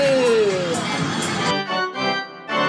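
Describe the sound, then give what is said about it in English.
Arcade ambience of crowd babble and cheering, with a falling electronic tone early on, then sustained electronic machine tones pulsing on and off with short gaps. “depending on what all that sounded like, you know, to us in the record, you've either just listened to us in an arcade”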